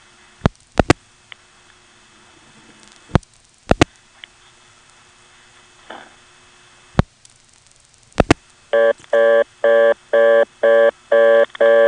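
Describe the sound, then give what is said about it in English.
Telephone dialing into a tandem exchange on an old director-area switching system: scattered sharp clicks over a quiet line with faint hum, followed near the end by a rapid, evenly spaced series of loud multi-tone signaling bursts. “I'll drop the director, dial 6 for tandem, 24 to get into whatever's there, and then hopefully the digit 1 will give us a vacant level recording.”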